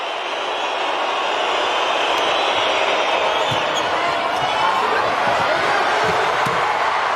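A volleyball serve in a women's volleyball match, heard as a few faint, sharp ball thumps over a constant roar of crowd noise.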